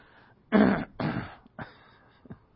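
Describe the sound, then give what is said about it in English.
A man, a pastor with a persistent throat irritation, clears his throat in three rough bursts, the first loudest, followed by a couple of faint short rasps. “I'm known to some people as the pastor who clears his throat. I can't get rid of it.”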